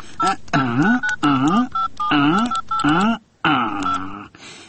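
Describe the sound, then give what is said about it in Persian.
Telephone keypad tones as a phone is dialed to call a lawyer, with short electronic beeps in a quick, irregular series. “خوب باش که ما وکیل صاحب شیرک یک زنگ بزنم.”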